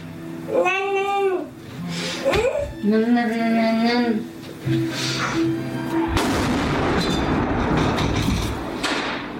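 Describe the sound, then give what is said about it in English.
A bomb explodes during shelling in Syria: a sudden broad blast about two-thirds through, followed by sustained rumbling noise. Wavering high wailing cries sound out before it. “The sound of a bomb.”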